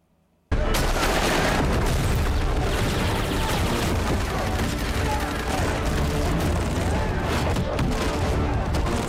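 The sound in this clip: Gunfire from a played video of a shootout: a loud, dense barrage of shots and booms that starts abruptly after a moment of silence and continues without pause.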